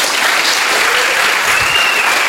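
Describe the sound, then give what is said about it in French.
Students applaud their teacher, a dense, steady clapping that fills the whole clip at an even loudness, with no talk over it. “Vous pouvez applaudir votre professeur.”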